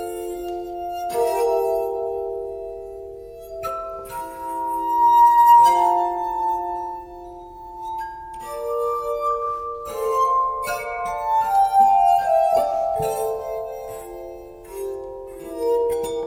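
A glass harmonica plays soft, sustained ringing tones. Its pure glassy notes overlap and blend into a slow, gentle melody, swelling and fading without any accompaniment.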